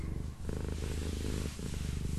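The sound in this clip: A cat purrs: a low, steady, rhythmic rumble with fine rapid pulses, continuous and fairly loud, with no voices.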